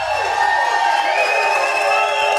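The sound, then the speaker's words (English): A red-clad, rowdy crowd cheers and shouts at a live Chiefs fan show in the Hy-Vee Nolan Road store, a dense, steady wash of voices and whoops that stays loud throughout. “We have a red and rowdy and raucous crowd here tonight. We're at the Nolan Road location of Hy-Vee, one of my favorite locations.”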